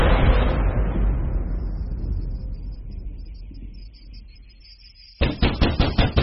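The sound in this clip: Rapid, heavy banging on a door: a burst of several loud, sharp blows near the end, following a long, fading low rumble.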